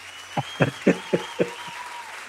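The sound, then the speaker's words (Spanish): Applause heard as slow, evenly spaced, muffled claps, several in a steady rhythm, over a faint sustained hum. “Ahí están los aplausos.”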